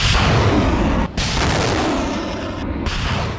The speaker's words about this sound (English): The launcher rumbles into the middle of the field and fires four rockets in quick succession.